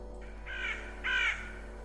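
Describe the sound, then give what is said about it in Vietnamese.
Two harsh, eerie caws come from a black crow on a rooftop. The second caw is louder and longer than the first, and both sit over a faint, steady low hum. “đột nhiên ở trên mái nhà có một con quạ đen. Nó kêu lên những tiếng ghê rợn, rồi nó bay vút lên trên bầu trời.”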